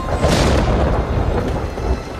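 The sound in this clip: Thunder rolls as a low, continuous rumble, steady and fairly loud throughout, with no other sounds over it.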